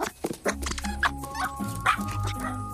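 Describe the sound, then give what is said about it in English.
A white puppy makes low growling and whimpering sounds at a squeaky toy carrot, a continuous, fairly faint stream of dog noises broken by a few short yips. “he wags his tail. He growls at a squeaky toy carrot.”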